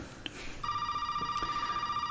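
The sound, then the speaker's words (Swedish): Old telephone ringing in a worn house in a video game: a bright, steady ring with a rapid warbling pulse starts after a brief quiet lead and continues to the end, loud and alone. “En gammal telefon ringer i ett sletet hus.”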